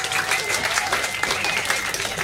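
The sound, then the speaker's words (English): A quiz-night audience applauds the score keeper with a steady patter of many hands, individual claps poking through a continuous, moderately loud wash. “Huge round of applause for Score Girl,”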